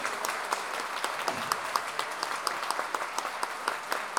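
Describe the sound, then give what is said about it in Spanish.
Audience applause at a Chilean payador celebration and national counterpoint duel: steady, moderately loud clapping from a crowd, with individual sharp claps popping out of the even wash throughout. “Pero me parece que el aplauso, cuando yo destaqué a las mujeres que estuvieron en este encuentro, el aplauso no fue muy bueno. ¡O no fue motivado!”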